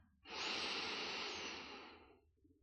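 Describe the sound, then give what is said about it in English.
A person inhaling deeply: one long, loud, airy breath drawn in steadily for about two seconds, then tapering off alone. “Inhale.”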